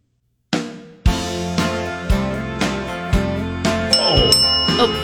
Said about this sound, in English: I don't know who rang in. I did.